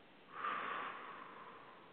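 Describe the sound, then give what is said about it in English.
A gentle exhale through pursed lips: a soft, airy breath that begins after a brief pause, swells quickly, then tapers off slowly, faint and steady with no voices. “Inhale through your nose and then gently exhale through pursed lips.”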